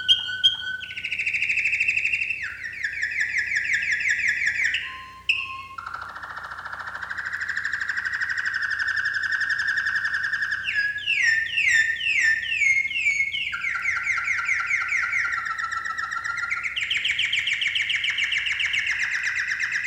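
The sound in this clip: Bird song slowed to half speed so it sits an octave lower, made of loud, clear whistled phrases with slurred notes and rapid fluttering runs, heard alone.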